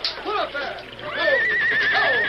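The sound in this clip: Horses neigh in a radio drama as a wagon team breaks loose and is swept away by a river current. Several shrill whinnies rise and fall in pitch, and a long, wavering neigh holds through the second half.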